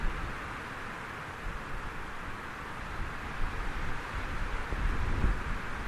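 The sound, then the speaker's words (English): Wind blows through trees in a steady, unbroken rush of broad noise that holds level throughout and swells slightly louder near the end. “The wind in the trees.”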